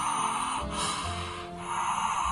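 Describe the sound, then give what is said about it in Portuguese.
Breathy inhalation through the mouth of steam rising from water heated in a kettle: a steady, fairly loud hiss that runs the whole time, with two brief dips in strength. “Então você esquenta uma água na chaleira, coloca a boca próxima do recipiente e vai aspirar o vapor pela boca.”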